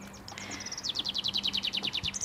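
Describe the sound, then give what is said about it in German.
A northern lapwing calls in flight: many rapid, high, chirping notes in an even series. They build up after a quieter start and stay fairly faint over a low steady hum. “Jetzt fliegt ein Kibitz. Ist das ein Kibitz? Ja, das ist ja.”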